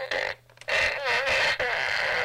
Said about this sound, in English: here's an example of the kind of great cool things that you have. This is called the Fart Blaster.